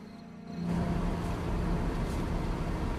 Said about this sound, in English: Car's headlights blaze as it drives along the dark winding road, surrounded by shadowy trees. As the car cruises onwards